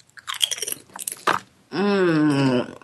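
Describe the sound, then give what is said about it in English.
Someone chews two blue chips, making a series of crisp, crunching bites, then lets out a long hummed moan of enjoyment. “Okay, I'm gonna put two chips in my mouth.”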